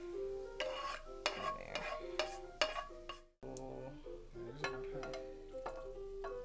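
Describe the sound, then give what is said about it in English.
A spoon scoops a cooking mixture from a bowl, with a wooden spoon mentioned. Many bright clinks and scrapes come in an uneven rhythm, broken by a brief pause. “And then I'm just gonna scoop.”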